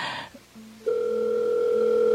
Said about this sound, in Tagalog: Sulayan akong tawag si nanay. Basin makontak na siya. Tawagan ako siya.